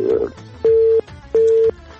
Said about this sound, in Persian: متاسفانه قد شد باز هم تماس قد شد